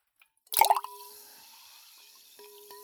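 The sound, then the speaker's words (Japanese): Ice cubes dropped into a glass of fizzy carbonated drink: a brief splashing plop, then a faint, steady fizz with a soft ringing tone that fades and returns near the end. “はい、氷、これなら絶対音変わるでしょ。じゃあ氷入れるよ。”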